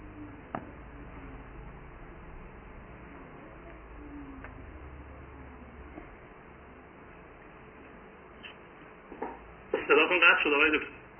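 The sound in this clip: A telephone rings briefly near the end, a short bright burst after a long stretch of quiet low hum and a few faint ticks. The caller then hangs up.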